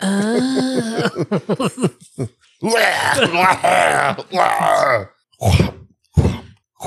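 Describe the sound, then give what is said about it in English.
A voice imitates a wounded man's groaning: a series of strained, voiced moans and grunts broken into short bursts, with wavering pitch and brief pauses between them. “discovered his slain brother and sister-in-law roughly 2 hours after the attack had occurred, upon hearing strange groaning noises through the wall.”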